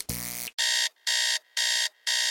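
An alarm clock goes off with harsh electronic beeping: a single lower, buzzier tone is followed by a run of loud, high, evenly spaced beeps with short gaps between them.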